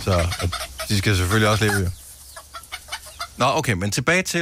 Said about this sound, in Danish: Så det her, det er, hvis ikke du skulle vide det, hvis du er opvokset i byen, det er lyden af høns.